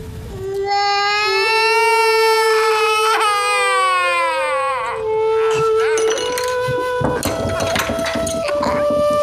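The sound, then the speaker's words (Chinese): Children crying loudly at a family New Year meal, long wailing sobs with wavering pitch that overlap and turn more ragged and broken toward the end. “大过年的哭哭哭，丧气。”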